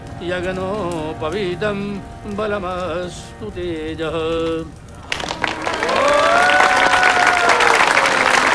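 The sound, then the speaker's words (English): Guests applauding after a wedding ceremony: a dense, steady wash of clapping rises after a stretch of music and continues loudly, with voices and a sustained tone mixed in. “The guests applaud once the ceremony is completed.”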